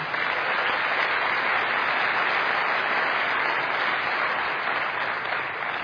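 Chapel audience claps to welcome a preacher to the stage, a full, continuous wash of applause holding steady and easing off just at the close.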